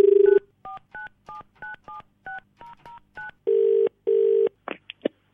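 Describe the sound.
A telephone being dialled to call a cyber crime police station: a quick run of keypad beeps, then two long, steady call tones, ending with a few sharp clicks. No voices.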